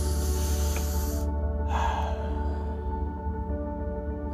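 A deep breath drawn in and let out: a long, breathy hiss of inhalation, a brief pause, then a softer exhale over a steady tonal background.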